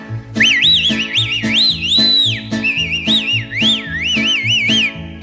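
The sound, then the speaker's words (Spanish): A discreet whistled call, given as a familiar signal: repeated melodic whistle phrases that swoop up and down in pitch, heard over a steady, low rhythmic background. “Te echaré un chiflito al que te tengo acostumbrada, muy discreto, así mi vida, óigalo.”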